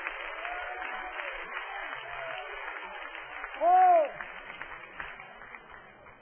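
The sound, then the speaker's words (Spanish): Applause from an audience during a church service: faint, steady clapping throughout, with a brief loud voice crying out over it midway before the clapping continues. “Dale un aplauso a Dios en esta noche.”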